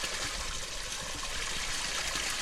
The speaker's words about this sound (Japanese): 今私たちはニュープの霊水が流れる場所に到着しました。